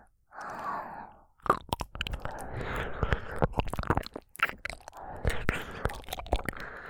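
Wet ASMR mouth sounds of licking and nibbling an ear: many close, crackling smacks and clicks in an irregular stream, with breathy whispers at the start and in the short pauses.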